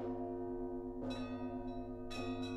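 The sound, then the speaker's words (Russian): Church bells ringing for mass amid gusting wind and snow: several overlapping bell strikes over a sustained, humming ring of tones, heard quietly and muffled. “Зазвонили колокола к обедне. В порывах ветра и снежной завесе звучали глухо.”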